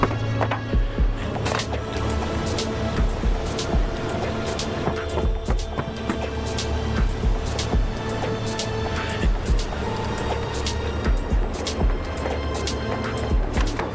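A car drives fast through busy city traffic, with continuous engine and road roar and scattered sharp ticks throughout.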